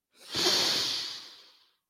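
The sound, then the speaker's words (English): A person taking a deep breath in: one long, airy inhalation that swells quickly, then fades over about a second and a half, alone without talk. “We take a deep breath in, blow out the bad, and fill up with some goodness. So let's take a deep breath in.”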